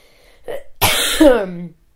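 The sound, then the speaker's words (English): Coughing and throat clearing from someone who has just smoked a lot of marijuana: a short rough catch, then one long, harsh, raspy cough with a strained voiced tail, fairly loud and alone. “sorry, I just like smoked so much weed I had to cough.”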